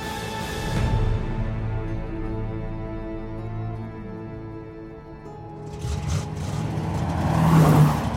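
A getaway car pulls away at full throttle from a bank after a robbery. The engine drones steadily with a strong harmonic hum, then swells into a louder revving roar toward the end.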